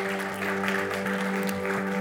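Clapping from a church audience after a sermon, an even, continuous patter of hands with a sustained low tonal hum running steadily beneath it.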